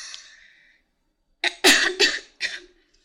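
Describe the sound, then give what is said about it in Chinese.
Coughing from someone who choked on their own saliva while drinking water: a faint breathy sound, a short pause, then four sharp, harsh coughs in quick succession. “我喝口水，被我自己的口水呛到了。”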